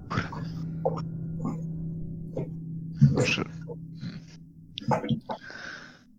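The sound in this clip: A voice imitates a mocking, half-laughing cat meow during a tabletop role-playing game session. The short voiced, breathy sounds come in a few bursts amid other vocal noises.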